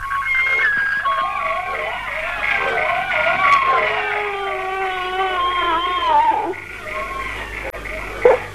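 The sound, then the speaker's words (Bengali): A young child cries in long, wavering, drawn-out wails that rise and fall in pitch over a low steady hum, then fade near the end as a brief bump sounds. “কাঁদে না বাবা, কাঁদে না”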